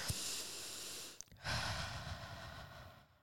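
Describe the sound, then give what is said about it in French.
One person takes a deep breath: a long, airy inhale, then a brief pause, then a drawn-out exhale that slowly fades. “C'est-à-dire, tu te poses, tu dis ok, je respire un grand coup.”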